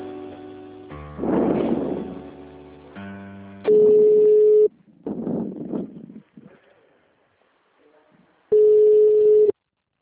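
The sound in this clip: A telephone line tone sounds while a call is being transferred. Two steady, mid-pitched tones each last about a second, separated by a gap filled with faint line noise, clicks and voices talking.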